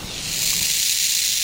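Sonified event data from the SNO+ neutrino detector, heard as a dense, steady bright hiss that fills the whole moment without distinct pauses or breaks.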